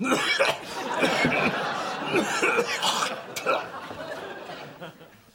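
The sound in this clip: A man gives a wet, phlegmy cough in a few rough bursts. Voices talk and chuckle around it.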